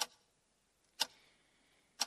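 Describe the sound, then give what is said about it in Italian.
A clock ticks three times alone, sharp faint clicks spaced evenly about one second apart, with quiet between each tick. “È il tempo di interrompere questo ticchettio incessante.”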